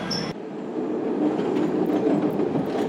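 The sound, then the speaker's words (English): A red line subway train bound for 95th pulls away once its doors close: a brief high tone at the start, then a steady, growing rumble of wheels on rails. “This is a red line train to 95th. Doors closed.”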